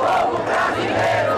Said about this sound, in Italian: Lula gli risponde dal cuore di San Paolo con una grande marcia di popolo. 2 chilometri e, secondo gli organizzatori, 150.000 persone.